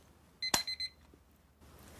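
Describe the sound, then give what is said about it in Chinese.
An alarm clock sounds four quick, high electronic beeps with a sharp click among them, then cuts off abruptly as it is switched off, leaving near silence. “我把闹钟关掉。这是一个闹钟，我把闹钟关掉。”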